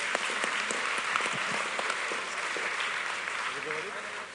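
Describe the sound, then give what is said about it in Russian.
A group at a discussion session applauds one another: many hands clapping in a full, steady wash that eases slightly toward the end, with some voices mixed in. “Давайте похлопаем друг другу.”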